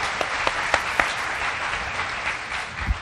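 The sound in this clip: Audience applause welcomes a speaker to a church fellowship gathering: a dense, steady wash of many hands clapping, with a few sharper claps standing out, sustained at even loudness throughout.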